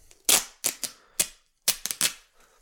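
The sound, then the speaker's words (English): Woven tape being ripped by hand with the fingers: several sharp, crackly tearing bursts, each short and fading fast, separated by brief silent gaps. “it has like that little weave pattern in it, which makes it very easy to just rip with your fingers. So just start at the side and just rip it.”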